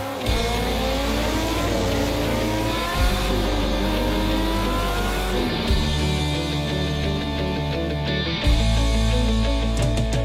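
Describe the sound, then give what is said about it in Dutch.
Racing motorcycle engines roar at the TT, the annual world-class motorcycle race in Assen held in June. Loud, continuous high revving whines shift in pitch as machines accelerate and pass, with no talk. “Verliefd op het motorgeluid. En dan bedoelt Ben Oevermans vooral het geluid van de TT in Assen. De jaarlijkse motorrace in juni.”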